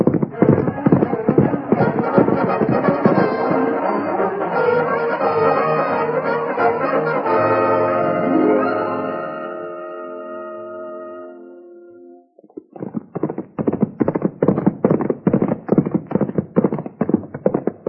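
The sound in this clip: Rapid hoofbeats of horses being ridden, a radio drama sound effect, run steadily throughout. A dense tonal layer partly masks them for the first two-thirds, then the galloping rhythm rings out loud and clear on its own at the end.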